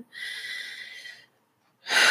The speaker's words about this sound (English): when those things happen in my life, I just take a deep breath like I just did